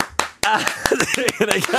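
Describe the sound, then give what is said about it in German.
Audience clapping along in time to a sung song: about eight sharp, evenly spaced claps at a brisk tempo over people singing. “Und jetzt singen wir noch einmal Gloria und jetzt zeige ich euch, wie einfach das ist mitzuklatschen.”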